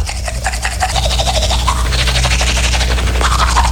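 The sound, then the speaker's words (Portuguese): A person brushing their teeth: a loud, continuous scrubbing rasp with a fast back-and-forth texture that barely lets up. “tá escovando os dentes.”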